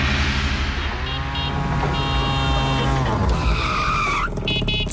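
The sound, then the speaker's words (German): Engine of a tuk-tuk auto rickshaw driving, a loud, continuous motor drone that holds steady and then shifts pitch as it revs toward the end. “Wir hören nochmal, so klingt das Tuk-Tuk.”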